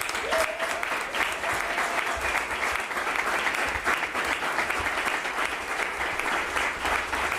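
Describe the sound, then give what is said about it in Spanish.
Crowd applause at a political campaign event in Aragón: loud, dense, sustained clapping that stays even from start to finish, with a few faint voices scattered underneath. “Un fuerte aplauso, por favor, para Joaquín Palacín.”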